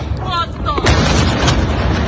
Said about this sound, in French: Dernier exemple en date avec cette vidéo montrant une vaste explosion en pleine ville.